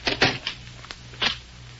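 A door being closed in a darkened house, giving a few short knocks and clatters of wood and latch, moderately loud and sharp, with no voices over them.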